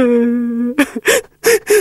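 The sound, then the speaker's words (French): Someone crying: a drawn-out, steady whimpering wail, then a few short, choppy vocal bursts like sobs. “Il y en a un qui pleure dans le coin.”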